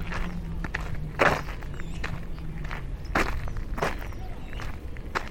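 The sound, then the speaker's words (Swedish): Footsteps of a person walking down outdoors, a series of faint, irregular footfalls over a steady background hiss. “jag börjar gå då. Går jag ner till familjen.”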